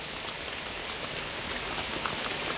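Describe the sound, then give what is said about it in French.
Light rain falls in fine, fairly slow drops, making a steady, even hiss of soft patter with no pauses and no voices. “Au centre, c'est un fin rideau au réseau discontinu. Une chute implacable, mais relativement lente, de gouttes probablement assez légères. Une précipitation sempiternelle, sans vigueur.”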